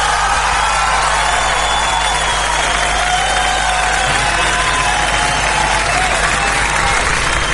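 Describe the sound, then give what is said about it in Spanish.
Applause fills the whole stretch as continuous, dense, loud clapping with a faint layer of crowd cheering, holding an even level from start to finish. “Un aplauso y muchas gracias por estar, como siempre, en sintonía.”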